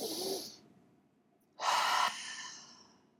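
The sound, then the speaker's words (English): Breathing during a guided breathing exercise: a short breath, a pause, then a longer, louder deep breath that slowly fades, heard alone without talk. “And that as we breathe in, take that breath right now with me.”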